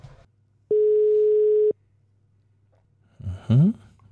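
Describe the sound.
A telephone tone sounds while a call is being placed: one steady mid-pitched tone lasting about a second, then silence, then a brief burst of rising, chirping sound.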